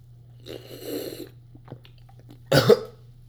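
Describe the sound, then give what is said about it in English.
A person coughs after drinking water with a dry throat, giving two rough, sputtering bursts. The second burst is shorter, sharper and louder, over a steady low hum, with no talking. “my throat was so dry that I, like, coughed the water up.”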